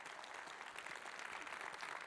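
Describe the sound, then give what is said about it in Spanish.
Audience applause honouring people over sixty and seventy who have stood up: dense, steady clapping from a crowd, sustained evenly throughout with no voices over it. “Si tú tienes más de 60 años, 70 años, ponte de pie en este lugar. Porque queremos honrarte con un aplauso por todo lo que has vivido.”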